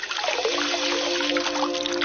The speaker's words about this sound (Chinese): 拿开水泡 啊、放到这个盆子里面。